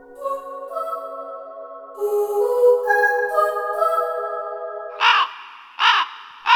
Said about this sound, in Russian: Это была старая ворона, которую разбудил среди ночи яркий свет.